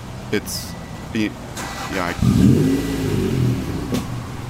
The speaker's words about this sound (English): Sweet ride. That is a sweet ride. Is that a Ferrari? Maybe not. Maybe an NSX.